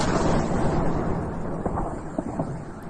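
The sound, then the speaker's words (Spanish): Deep, rumbling explosions from bombing in Ukraine form a continuous heavy roar, with a few sharper thuds breaking through near the end. “Sin distinguir entre invierno y verano, viviendo entre bombardeos, privados de ser simplemente niños,”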